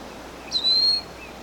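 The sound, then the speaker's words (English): A single high, thin call from a wild bird overhead, one brief drawn-out note standing clearly above a faint steady background hiss. “We have two wild birds over the top. They're doing the martial protest notes.”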